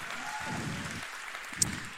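A church audience applauding to welcome the LaGrange campus, steady quiet clapping with no voices standing out.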